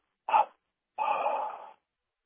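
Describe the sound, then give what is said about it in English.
Breathing during a guided breathing exercise: a short, breathy burst followed after a pause by a longer, steadier breath, both soft and airy and alone in silence. “So, first of all, now, breathe in. And breathe out three times.”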